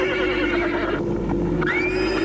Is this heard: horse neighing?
yes

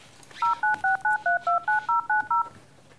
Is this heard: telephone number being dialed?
yes

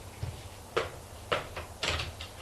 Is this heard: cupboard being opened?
yes

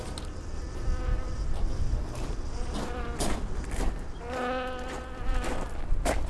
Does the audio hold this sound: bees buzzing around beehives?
yes

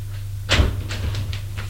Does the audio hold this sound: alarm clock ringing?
no

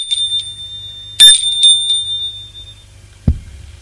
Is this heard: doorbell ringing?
yes

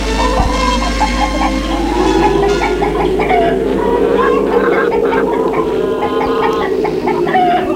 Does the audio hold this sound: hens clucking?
yes

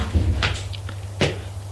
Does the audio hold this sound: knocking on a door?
yes

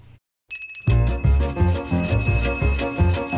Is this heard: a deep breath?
no

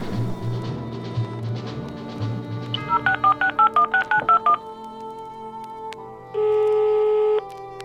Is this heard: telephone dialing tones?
yes

